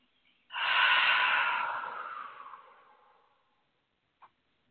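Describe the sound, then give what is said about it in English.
A deep breath drawn in through the nose comes as one long, airy inhale that starts abruptly and loudly, then gradually fades over about three seconds, with quiet before and after. “Sometimes I feel like it's through my nose. I don't think you can do this wrong. It's whatever feels right to you. And let's just do it. Breath in.”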